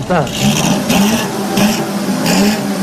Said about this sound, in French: le moteur de votre voiture à 12 cylindres procure une harmonie qu'aucun maître ne pourra jamais reproduire